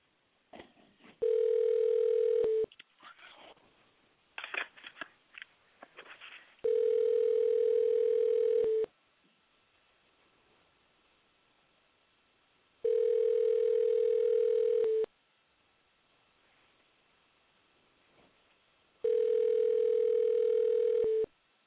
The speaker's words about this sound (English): Y'all better be quiet, because here I go. I'm dialing.